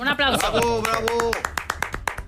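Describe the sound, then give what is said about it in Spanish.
Audience applause on a quiz show: a voice speaks over the opening, then sharp, separate hand claps follow in a quick, uneven patter. “Eso se merece un aplauso, ¿no?”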